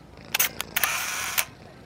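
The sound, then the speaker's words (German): Camera shutter firing as a photo is taken: a few crisp mechanical clicks, with a brief steady hiss between the later ones, fairly quiet and with no voices. “Er kann nicht anders. Er muss einfach ein Foto machen.”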